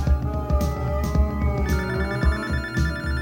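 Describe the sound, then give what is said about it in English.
A telephone rings in a steady, repeating electronic ring pattern with a bright tone. It sounds alone, with no talking. “That's the phone. That phone call is on the air.”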